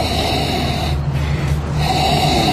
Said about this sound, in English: I want you to inhale several times, very sharp inhalations.